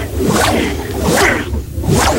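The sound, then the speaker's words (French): A whip swishes through the air in three loud, broad whooshes at a fairly steady rhythm, each sweeping swish following closely on the last with no talking. “Ah mais avec le fouet carrément.”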